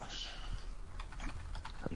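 Soft, quick keystrokes on a computer keyboard as someone types an email address, an uneven patter of many quiet clicks.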